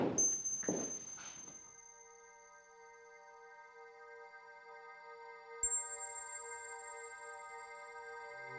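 A load of firewood being brought and dropped: a few heavy, dull thunks at the start, then a steady sustained tone that carries on to the end.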